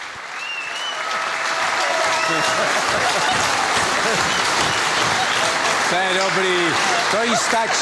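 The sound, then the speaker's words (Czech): Studio audience applause builds quickly into a dense, steady wash of clapping that runs throughout, with voices talking over it in the final seconds. “jste to musela slyšet, že chlapci vám tleskali a ty vás vidějí zezadu”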